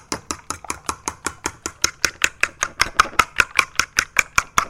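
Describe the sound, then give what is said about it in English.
A whisk beats egg custard for French toast in many rapid, evenly spaced clicking strokes against the bowl, keeping a steady rhythm and growing slightly louder toward the end. “So the sound you hear is whooping up custard for French toast.”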